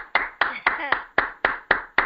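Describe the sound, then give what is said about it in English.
Eight sharp hand claps come at a steady, even pace, each crisp and distinct with nothing else heard between them, during a group exercise. “That was the sound of clapping.”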